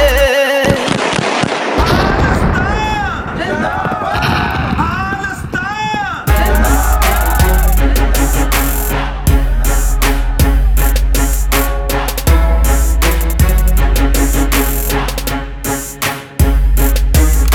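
Fireworks and firecrackers: a few seconds of wavering whistles give way to long, dense volleys of sharp crackling bursts punctuated by deep, regular thuds, loud throughout.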